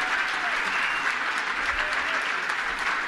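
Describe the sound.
An audience at a political speech applauds: a dense, even clatter of many hands clapping at constant loudness throughout, with no voices rising above it.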